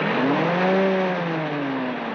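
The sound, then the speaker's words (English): A car motor, said to have 300 brontosaurus power, revs in a loud, steady drone. Whining tones climb and then slowly sink again, with no talk over it. “Now, listen to that motor. 300 brontosaurus power.”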